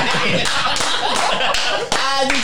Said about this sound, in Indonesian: Jadi kita harus berikan aplaus kepada jajaran yang ada di Pemprov DKI.